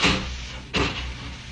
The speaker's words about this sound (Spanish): Doris oprimió un botón y la puerta se cerró herméticamente